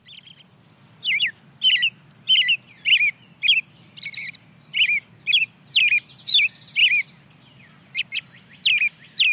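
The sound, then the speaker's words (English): An American robin sings a long run of short, clear, warbled phrases, each separated by a brief pause. The phrases repeat in a fairly steady rhythm over a faint low rumble. “Starts off with the American robin, the early riser.”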